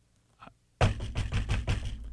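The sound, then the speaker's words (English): Someone bangs on a door: one faint knock, then a rapid series of loud, heavy thuds in a steady rhythm. “Somebody else will be banging on the door.”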